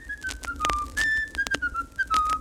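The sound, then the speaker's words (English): Someone whistles a short tune of clear, sustained notes that step up and down in pitch, loud and heard alone. “In fact, the only things that Jack was good at were whistling”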